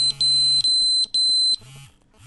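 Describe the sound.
A phone's message notification alert rings out as a rapid run of high, piercing electronic beeps over a low steady buzz, loud and clipped, stopping abruptly before a faint tail.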